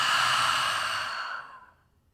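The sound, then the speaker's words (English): A deep exhale through an open mouth during a breathing exercise: one long, breathy sigh that starts full and gradually thins and fades away over almost two seconds. “Full inhale. Let's open the mouth. Open your arms out wide and exhale.”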